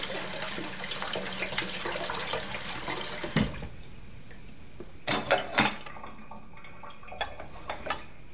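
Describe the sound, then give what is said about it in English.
Water runs steadily into a kitchen sink during washing up, with a few sharp clinks and knocks of dishes rising above the soft, continuous flow. “She washes up in the kitchen”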